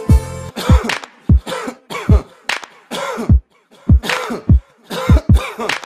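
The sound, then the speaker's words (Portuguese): Harsh, repeated coughing from a person in a dramatized scene about smoking: many short, loud bursts in an uneven rhythm with brief gaps. “Tá tossindo por quê?”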